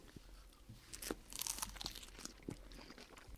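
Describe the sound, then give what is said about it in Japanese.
Crisp crunching and crinkling come from someone biting into expensive packaged food sold by the pack. A few sharp crunches rise over soft rustling, all quiet, with no talk. “じゃあ、ちょっと、はいいただきますよ。”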